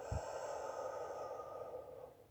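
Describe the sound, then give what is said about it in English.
A deep breath in and out during a guided breathing exercise, heard as a long, soft, airy rush of air that fades gradually at the end. “And again, deep breath in and out.”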